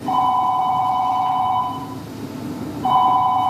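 A telephone rings during a stage production: two bursts of a loud, steady electronic trill separated by a brief pause, the second burst cut off at the end, with no talk over it.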